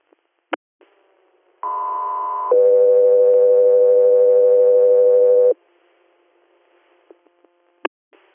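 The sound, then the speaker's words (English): Dispatch alert tones paging an air medical crew: a loud, clean steady higher tone, then a longer, lower steady tone, with a few faint clicks before and after. “standby for tones.”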